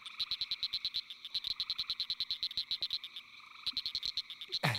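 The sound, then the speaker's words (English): A chorus of tree frogs calls alongside another calling frog species, a fast, steady run of many high, pulsing notes repeated in a regular rhythm, with a brief pause in the middle and a louder, harsher burst at the very end. “So in the background, you can, there's some tree frogs calling in the background, which make it a little harder.”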